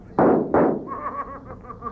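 Gunshots in a shoot-out near an old mine entrance: two loud, sharp blasts in quick succession, then a ringing decay. No voices.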